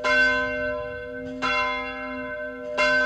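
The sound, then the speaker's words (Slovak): A large church bell in a tower rings out with three heavy strokes about a second and a half apart, each leaving a bright, sustained metallic hum that carries into the next. “Niekedy si predstavujem, že bude zvoniť ako veľký kostolný zvon na veži a že všetkých ľudí zobudí.”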